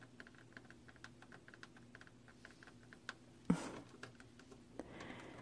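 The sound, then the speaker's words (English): Light tapping on a nail stamping item: many quick, faint ticks in an irregular rhythm, with a couple of sharper, louder knocks near the end. “my favorite is absolutely this one. It has a pretty cool tapping sound.”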